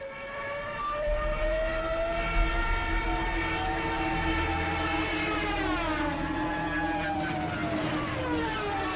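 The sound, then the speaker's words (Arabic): A German Stuka dive bomber in flight gives a loud, sustained wailing drone of stacked tones over a low rumble. Its pitch bends and wavers about two-thirds of the way through. “الصوت الذي تسمعونه هو صوت طائرات ستوك الألمانية.”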